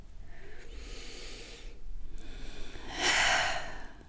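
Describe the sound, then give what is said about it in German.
Slow, deep breaths taken during a guided relaxation exercise: a few long, airy inhales and exhales with no talk over them, the last one louder and more forceful. “nimm ein paar tiefe Atemzüge mit uns gemeinsam”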